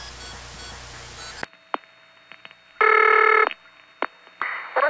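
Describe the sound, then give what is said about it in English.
Dialing a vacant code on an old long-distance phone trunk: steady line hiss cuts off into scattered clicks, then a short burst of stacked signalling tones, more clicks and noisy line tone at the end. “Let's dial a vacant code.”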